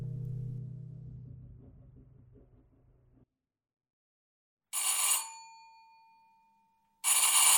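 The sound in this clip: A telephone bell rings and no one answers. Two bright, metallic ring bursts are separated by a pause, and the first lingers with a fading tone. A low, fading chord and a stretch of silence come before the rings.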